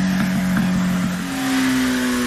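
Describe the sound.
Motorcycle engine revving at a biker gathering: a loud, steady droning hum with strong harmonics that steps up to a higher pitch about halfway through and then holds there.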